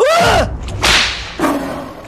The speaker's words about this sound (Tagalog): Kasabay ng babala kong yun ay pinalo ko nga ng buntot pagi sa bandang paa ang aswang.